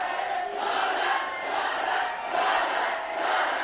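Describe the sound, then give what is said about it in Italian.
A wrestling arena crowd cheers loudly for a wrestler. The roar holds steady and swells in rhythmic surges, with no clear talk over it. “Pubblico è tutto da parte di Juala. Pubblico tutto per Juala.”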